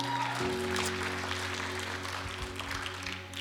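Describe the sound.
Audience applause welcoming a guest onto a stage: a steady, dense wash of clapping that holds throughout, with sustained music tones running underneath.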